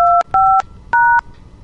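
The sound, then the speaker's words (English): Three telephone keypad tones dial an extension on an automated phone system: clear, loud two-note beeps, each about a quarter second long, with a short pause after the second one. “Please dial an extension now or dial zero for assistance.”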